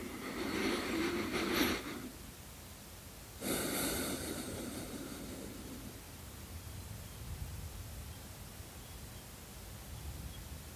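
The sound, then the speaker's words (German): Deep breath taken during a breathing exercise: two soft, airy breath sounds, a longer one at the start and a shorter one a moment later, then a low, steady hiss, all quiet. “Und ich empfehle, diesen Atemzug zu machen, wirklich oft, häufig in deinen Alltag einbauen.”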